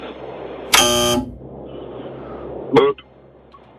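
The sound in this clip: A quiz show wrong-answer buzzer gives a single harsh, loud, buzzing tone lasting about half a second over low background noise.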